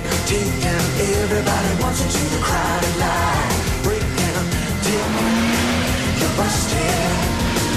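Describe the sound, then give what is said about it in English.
A Ferrari speeds along a freeway at sunrise, a loud, continuous engine roar with dense, steady road noise that holds for the whole stretch. “Axel casually speeds along the freeway in his Ferrari.”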